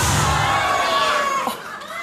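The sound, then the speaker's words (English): Cheering from a crowd of people, a loud, continuous wash of shouting voices that holds steady and thins slightly near the end. “the people are cheering”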